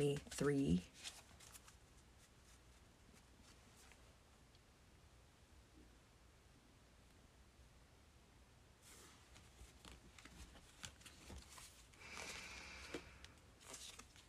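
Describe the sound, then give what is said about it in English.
Tarot cards being shuffled: a brief, loud burst of papery riffling at the start, then soft, low rustling and handling that grows busier and louder again toward the end. “So let's pull some cards for you and see what needs to come up for Capricorn Rising for”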